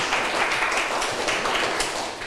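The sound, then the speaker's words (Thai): Classroom students clapping for themselves at their teacher's request make a steady, dense patter of many hands that runs through the whole stretch at an even level, with no talk. “ถูกต้องกันทุกกลุ่มเลยไหมคะถูกไหมคะเก่งมากปรบมือให้ตัวเองหน่อยค่ะ”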